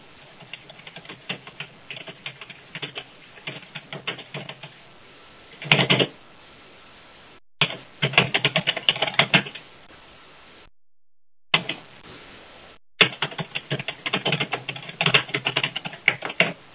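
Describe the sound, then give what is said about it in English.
Typing on a computer keyboard into a chat box: rapid clicking keystrokes in several bursts separated by short pauses, with no talking. “Yeah, that'd work fine. Let me type that into the box.”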